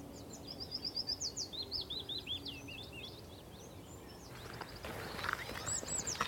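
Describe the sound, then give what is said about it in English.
Willow warbler singing in a willow: repeated phrases of sweet, high notes that cascade downward, clear at first and then thinning, over a steady low background hum. “it's willow warbler, and it's in a willow, doing what it should do.”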